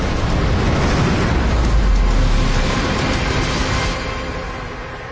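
Thunderous roaring blast of an asteroid impact explosion, a loud, dense, sustained rumble heavy in the low end that holds steady and then eases slightly toward the end.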